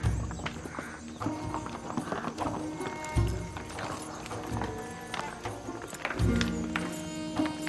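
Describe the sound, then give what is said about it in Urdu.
Hooves of a horse pulling a buggy clip-clop in a steady, brisk rhythm of sharp knocks, with a few heavier strikes standing out. “بگی خطرناک سواری ہے، اپنا خیال رکھنا۔”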